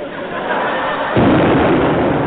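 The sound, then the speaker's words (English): A cannon fires as a comedy sound effect, a single deep, loud boom bursting out of a steady rushing noise about a second in, then a sustained heavy rumble. “he's opened fire, Dutch. Why? There's a cannonball coming.”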